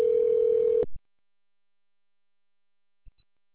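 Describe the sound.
A telephone ringing tone heard while placing a call: one steady, flat beep lasting under a second, then silence broken by a couple of faint clicks.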